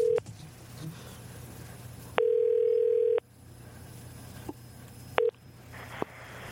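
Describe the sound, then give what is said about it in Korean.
A telephone call being dialed: a steady electronic dial tone sounds for about a second, with a few shorter tone blips before and after it, all fairly quiet. “전화 한번 걸어보겠습니다.”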